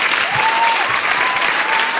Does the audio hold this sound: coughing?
no